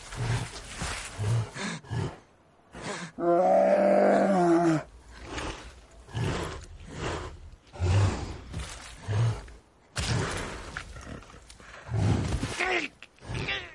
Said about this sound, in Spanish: El oso lo sacude con fuerza y se le coloca encima.